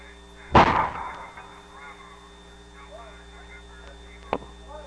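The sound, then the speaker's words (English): Artillery batteries opening fire: one loud booming blast with a rumbling decay, then a shorter, sharper report a few seconds later, with faint voices and a steady hum in between. “Batteries released. Commence fire, Director.”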